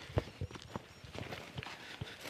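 Footsteps crossing a paddock thick with clover, a few soft, uneven thuds spaced apart over a faint outdoor background.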